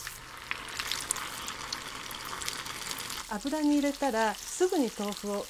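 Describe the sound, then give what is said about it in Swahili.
Tofu pieces sizzle as they fry in hot oil, a steady crackling hiss that runs throughout; partway through, a voice comes in over the frying. “Ikiwa mafuta yatakuwa ya kutosha na yote yawe na kiwango sahihi cha nyuzi joto, unaweza kukaanga vipande vingi vya tofu kwa wakati mmoja.”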